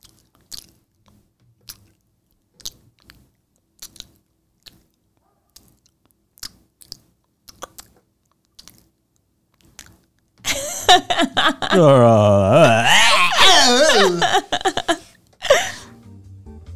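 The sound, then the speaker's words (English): A voice imitates stirring macaroni and cheese in a pot, making loud wet squelching and gurgling mouth sounds for several seconds after a stretch of faint scattered clicks. “Stirring macaroni in a pot. I do this quite frequently. Here we go. Stirring mac and cheese.”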